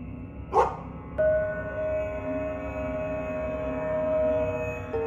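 A dog gives one sharp bark near the start, behind a house, after which a steady low tonal hum carries on alone with no further barking.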